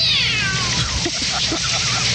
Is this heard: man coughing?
no